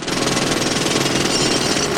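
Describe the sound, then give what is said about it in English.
Pneumatic drill worked by a road worker, a loud, dense, continuous hammering rattle that keeps a steady rapid pulse from start to finish, with no voices. “She watches it pass by, then stops again at a road worker who's using a pneumatic drill.”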